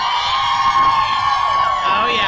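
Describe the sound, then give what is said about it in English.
A live crowd at Lifeway Women Live in Orlando whoops and cheers, a loud, continuous wash of raised voices throughout. “That sound a little bit different than they normally do, don't they, Elizabeth? Yes, and maybe you might hear some crowd in the background.”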